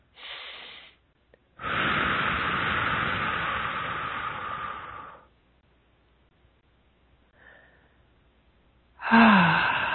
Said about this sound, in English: Nice deep breath.